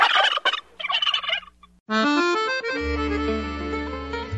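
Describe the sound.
Turkey gobbling: a loud, rapid rattling burst of gobbles fills the first half, then a sustained tonal warbling stretch follows.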